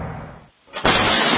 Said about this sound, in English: That's the sound of your door being kicked in by an intruder with a single kick.